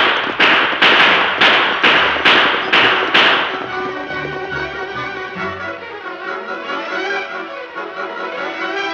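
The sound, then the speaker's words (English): A rapid volley of gunshots during a stagecoach holdup: a series of sharp, evenly spaced cracks over about three seconds, followed by music that carries on alone. “The Lone Ranger and Tonto, following the stage, rode from cover when they heard the shooting, and a moment later they saw the gang stop the stage.”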